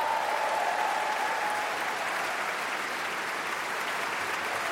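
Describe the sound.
An audience applauds an orchestra's wind players after an orchestral concert, with the conductor clapping for them too; a soft, steady wash of many hands clapping that holds level throughout, with no voices.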